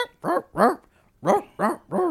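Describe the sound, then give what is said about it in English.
Dogs barking a Christmas jingle on a novelty CD: five pitched, tonal barks in a tune-like rhythm. Two come close together, then a pause, then three more. “Someone just put dog noises on their fucking keyboard and they're playing it.”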